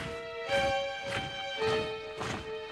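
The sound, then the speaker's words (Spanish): Rhythmic tramp of warriors marching around a city, with about four heavy, evenly spaced steps landing roughly every half second over a steady, sustained tone. “¡Ellos están marchando alrededor de la ciudad por séptima vez!”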